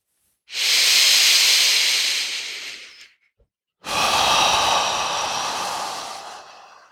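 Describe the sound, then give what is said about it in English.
Slow exhales during a nervous-system awareness breathing exercise: two long, loud, breathy rushes of air, each lasting several seconds and fading gradually, separated by a brief silence. “Okay, let's exhale.”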